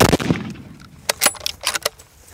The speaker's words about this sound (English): Again, second shot doesn't kill it.